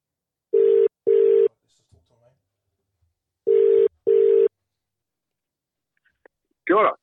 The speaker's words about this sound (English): It's Ken Laban, Sky Sport rugby commentator, and we're going to dial him in right now.